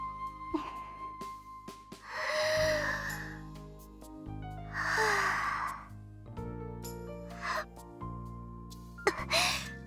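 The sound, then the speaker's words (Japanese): A person takes a few slow, deep breaths, each a soft rush of air, over a quiet, sustained musical tone in the background. “その前にちょっとお話ししたいことがあって、その前に一回深呼吸してもいいですか。”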